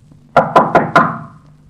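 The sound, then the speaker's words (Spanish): Four loud, evenly spaced knocks from an old woman rapping on the door of a small cottage, each hollow thud ringing briefly before the next. “una vieja golpea la puerta de la pequeña casita.”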